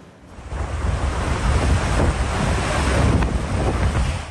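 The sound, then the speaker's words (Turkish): Roar of a river in Hatay, Turkey, flooded and overflowing after heavy rain: a loud, continuous rushing wash of water with heavy wind buffeting and no voices. “Hatay'da şiddetli yağış sele yol açtı. Dört yolu ilçesinden geçen Deliçay taştı. Araçlar suya kapılırken su baskınları yaşandı.”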